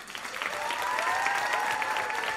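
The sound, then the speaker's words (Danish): Audience applause for a guest: dense, constant clapping from many hands, fairly quiet and sustained throughout. “Vil I ikke give en kæmpe, kæmpe, kæmpe stor hånd til Uffe Christensen alias Manfred Schlosser?”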